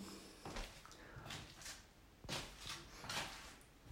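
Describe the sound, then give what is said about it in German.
A window being opened indoors: a few faint clunks and rattling knocks from the frame and handle, spread unevenly across the moment with quiet gaps between them. “So, ich werde wieder die Fenster öffnen.”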